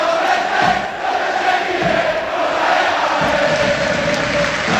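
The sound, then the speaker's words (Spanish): Football crowd roaring at Butarque stadium as Leganés play Mirandés at kickoff: a dense, sustained wall of voices and chanting at a steady, loud level throughout. “Espectacular el ambiente en Butarque, ya arrancó el partido del sur de Madrid”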